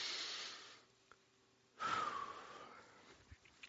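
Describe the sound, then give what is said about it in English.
Audible deep breathing, heard alone: a soft airy breath fades away, then after a short pause a louder, longer breath comes in with a faint whistling tone before slowly trailing off. “Just take a breath. Like literally take a breath.”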